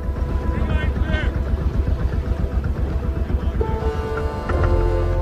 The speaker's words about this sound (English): As the boat pulls out to sea, Suitcase returns Jesse's stare.